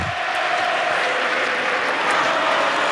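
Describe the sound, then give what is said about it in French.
Crowd noise from spectators at a tennis match, a dense, steady roar that holds at an even level for the whole stretch, with no single voice standing out. “Là, c'est Flavio hein, qu'on entend toujours de la part du public. On entend quelques petits Sacha.”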